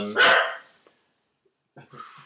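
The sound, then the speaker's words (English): A dog lets out one loud, sharp bark. After a quiet pause, softer and shorter vocal sounds follow. “Don't get your dog riled up, man.”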